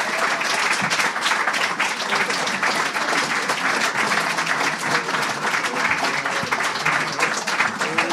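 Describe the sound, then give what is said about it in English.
Sustained applause from the audience at the Conan show greets the show's writers. A dense, loud wash of clapping holds steady for the whole stretch without letting up. “Please give a round of applause to the Conan Writers.”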